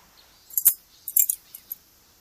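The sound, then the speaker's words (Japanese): A dropped key jangles in a few short bursts of bright metallic clinks, one cluster followed by a quicker rattle and two lone taps, heard alone against silence. “この鍵、どこに落ちていたか、わかりますか？”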